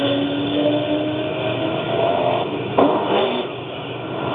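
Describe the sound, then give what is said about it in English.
Open-class off-road buggies roar off the start line at the Parker 425 off-road race, a steady engine drone with revving pitch sweeps and a sharp surge of noise near the end. “Your buggy style, open class, again. Very fast. I don't know how many times I can tell you this. These vehicles that are going off the line are the cream of the crop, fast to fast.”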